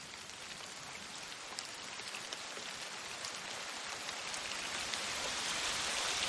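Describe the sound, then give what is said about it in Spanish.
Steady rain falls at night on a meadow in a gentle hollow edged by trees and hills, a dense, even hiss of drops that grows slightly louder toward the end. “De noche, llueve en un prado”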